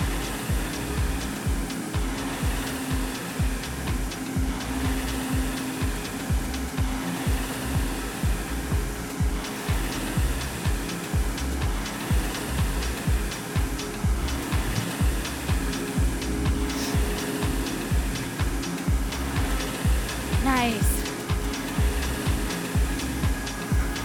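The air flywheel of a RowErg rowing machine whirs through continuous rowing strokes. A steady, loud fan-like rush swells and eases in a regular rhythm, giving many repeating pulses throughout, with no talk.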